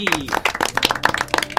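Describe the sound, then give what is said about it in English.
A studio audience gives a round of applause made of distinct, scattered claps. A voice is briefly heard at the start. “think that deserves another studio round of applause. Let's go for it.”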